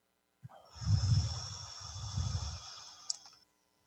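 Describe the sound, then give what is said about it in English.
A deep breath is blown out in a long, soft, airy rush that swells twice, with a small click near the end. The sound is quiet and stands alone. “Take a breath and blow it out.”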